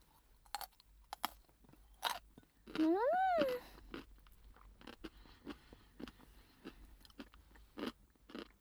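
Crunchy chewing of grandmother's homemade rice-bran pickles: many sharp, irregular crunches and bites, fairly quiet, spread through the whole stretch.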